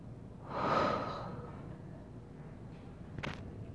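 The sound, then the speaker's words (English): One deep breath in and out, heard alone without talk: a soft, airy rush swells early, then fades into a faint, steady hiss, and a small click follows near the end. “I'm gonna breathe in, and we're gonna breathe out.”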